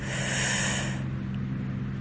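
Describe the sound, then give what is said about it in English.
A deep inhaled breath during a slow relaxation exercise: an airy, breathy rush lasting about a second that drops to a quieter hiss over a low steady hum. “Last one together, inhale.”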